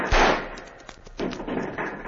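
Gunfire in a radio drama battle scene: a few sharp, loud bursts of shooting, with the first the strongest and the others more ragged, over a rumbling, noisy background.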